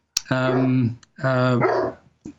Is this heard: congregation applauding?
no